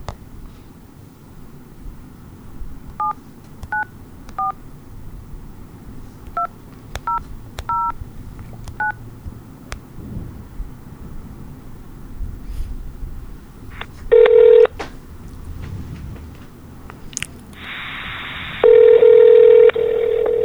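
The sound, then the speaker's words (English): Telephone keypad tones as a number is dialed: a quick series of short, clipped beeps, followed after a pause by two loud, long electronic ringing tones, the second longer than the first. “Let's dial this number in.”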